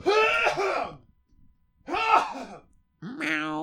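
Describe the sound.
Someone clears their throat to dislodge something stuck in it. Three rough, voiced bursts come one after another, separated by short silent pauses, and the last one is slightly higher and strained.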